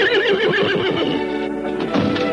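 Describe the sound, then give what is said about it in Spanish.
A horse whinnies as it pulls a cart to an abrupt halt outside a tavern. The call is loud and sustained, with a wavering, shaky pitch running for about two seconds. “El caballo frena bruscamente al llegar a la taberna.”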